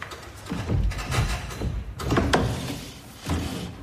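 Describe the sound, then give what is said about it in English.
Rattling, knocking and creaking as a large structure of furniture tied together with straps is shaken by hand in a room, coming in a few uneven bursts of wooden clatter with short lulls between them. “He steadily knots the straps around the furniture, creating a large structure in the center of the room. He shakes the structure, checking its stability.”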